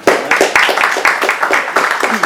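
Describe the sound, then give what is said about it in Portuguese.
Loud audience applause at a debate on land for housing, brisk clapping that comes in quick pulses, closely spaced and fairly regular across the whole short stretch. “Muito obrigado, então. Uma salva de palmas.”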